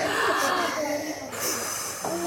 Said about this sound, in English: Put your hand on your belly and take in a breath with me.